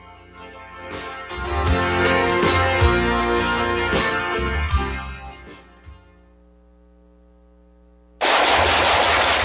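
Loud, dense gunfire fills the first six seconds, followed by a short lull and then a sustained, heavy burst of rapid fire at the end.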